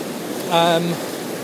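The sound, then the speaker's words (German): A torrent of water rushing through the Sagerain-Tobel gorge makes a steady, dense roar throughout, with a voice briefly talking over it partway through. “Es ist der Wahnsinn, so viel Wasser, wo da sich den Weg bahnt durch Sagerain-Tobel, wo ich gerade unterwegs bin.”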